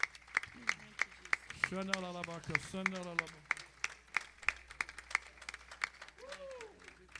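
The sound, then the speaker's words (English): A church audience's hand clap of praise: crisp, regularly spaced claps keep a steady beat throughout, while voices speak over them in the middle and again near the end. “Come on, give the Lord a great big hand clap of praise this morning.”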